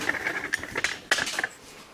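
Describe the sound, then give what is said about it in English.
Metal clanks and clatters as parts of a stove with a cast iron griddle plate are taken apart, a few sharp ringing knocks over a faint steady metallic ring, with the loudest clank just past the middle. “I wanted to show you some things about this stove. Taking it apart.”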